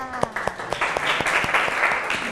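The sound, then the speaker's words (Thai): Classmates clap after a group presents a pop-up wedding invitation card, starting with sharp, evenly spaced single claps under a brief voice, then swelling into a denser patter of applause. “เป็นป๊อปอัพปรบมือค่ะ”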